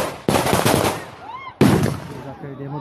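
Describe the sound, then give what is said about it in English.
Police fire rubber bullets toward makeshift homes during a forced eviction in a Sao Paulo favela. Two loud, sharp bursts of gunfire each fade out, and a brief whine rises between them. “In this YouTube video of a forced removal in another part of Sao Paulo, police are firing rubber bullets toward a cluster of makeshift homes as a man rushes an elderly woman out of the way”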